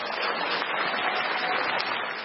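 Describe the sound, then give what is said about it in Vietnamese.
Audience applause for a male singer at a Vietnamese music show, a thick, continuous roar of clapping at an even level with no individual claps standing out. “Xin một tràng pháo tay nữa cho nam ca sĩ Quang Lê thưa quý vị.”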